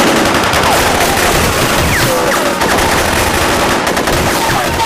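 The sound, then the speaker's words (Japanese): Sustained gunfire in a wartime battle scene, a loud, dense and continuous volley of shots with no pauses and no clearly separate reports. “もう一度撃て。”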